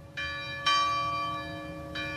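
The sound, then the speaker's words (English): Church bells ring at an Episcopal church in Uvalde, Texas, at a remembrance ceremony one year after a school shooting. Three clear strikes sound, the second loudest, and their resonant hum lingers between them. “Bells ringing moments ago at St. Philip's Episcopal Church”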